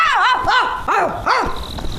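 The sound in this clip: A human voice imitates a dog barking, giving several loud, rough woofs in a quick uneven rhythm, each bark rising and falling in pitch.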